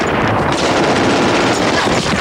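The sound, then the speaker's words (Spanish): Heavy gunfire from German soldiers firing at will around a bunker. It is a loud, dense, unbroken roar of rapid shots and bursts that continues without a pause. “Los alemanes abren fuego a discreción.”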